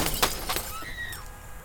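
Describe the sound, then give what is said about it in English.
A 1990 VW Rabbit sideswiping a Ford sedan, with shattering glass and crunching metal: a few sharp crashing bursts, then a brief high thin tone as the debris settles. “1990 VW Rabbit sideswiped a Ford sedan, sending metal, glass, and debris everywhere.”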